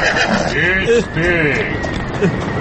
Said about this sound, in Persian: یا خدا این اسب سوار کی داره نزدیک میشه؟